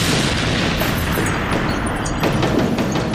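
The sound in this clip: Tank cannon fire and explosions in a tank battle as the enemy returns fire, heard as a dense, continuous roar of heavy rumbling booms that blend together at a steady, loud level, with no clearly separate blasts and no voices.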